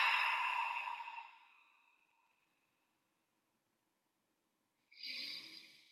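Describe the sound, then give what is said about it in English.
Deep exhalation through the mouth during a guided breathing exercise: a long, breathy rush of air that fades out over about two seconds, followed by silence and then a shorter breath near the end. “Fill the lungs and take a little bit more. And exhale everything out the mouth.”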